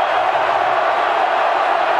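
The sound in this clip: Steady roar of a college football stadium crowd at a West Virginia versus Arizona game, a continuous loud wash of massed voices with no distinct peaks over the two seconds.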